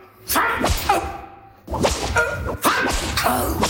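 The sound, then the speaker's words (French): Whip lashes strike a kneeling man, several sharp, loud cracks and swishes in an uneven rhythm, heard without talk. “20 coups de fouet à ce vagabond!”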